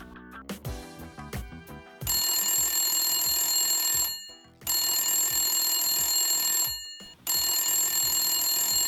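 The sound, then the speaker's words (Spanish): A telephone ringtone sounds as a friend calls. A short run of melodic notes leads into three long, shrill, steady ringing bursts separated by brief gaps, the last cut off at the end. “Acostúmbrate a este sonido. Es un amigo llamando todo el día porque le debes 20 euros.”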